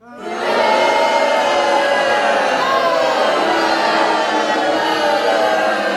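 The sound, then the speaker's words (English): Wrestling arena crowd booing Drew McIntyre as he wins the Money in the Bank match. A loud, droning mass of voices swells within the first half second, then holds as a sustained, unbroken roar. “he's going to get booed out of every freaking arena from here on out. If Drew gets that briefcase and we get the announcement and the winner of this match and the new Mr. Money in the Bank, Drew McIntyre, this is what you're going to hear.”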